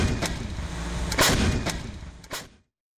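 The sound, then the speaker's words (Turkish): Booms from a Panter howitzer with a 27-round ammunition capacity, firing during a military exercise. Several sharp, heavy blasts ring out at uneven intervals over a dense low rumble. “Panter obüsü 27 adet mühimmat kapasitesiyle kesintisiz ateş gücü sağladı.”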